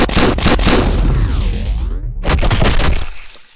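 Loud rapid gunfire in an animated action scene aboard a warship, near the captain's quarters. Dense cracking bursts run almost continuously, break for a moment around the middle, then resume and trail off.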